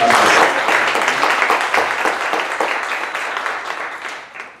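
Audience applause welcoming a pastor and Bible teacher onto the stage for an evening conference session: dense, even clapping from a crowd that stays full and steady, then thins and fades out near the end.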